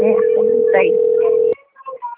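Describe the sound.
A telephone ringing tone on a business call, one long steady tone that holds for about a second and a half, then cuts off and gives way to a few short voice sounds.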